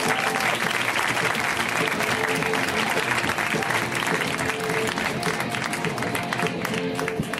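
An audience applauds as a comedian is brought on stage, producing a dense, steady wash of clapping that stays loud and even throughout.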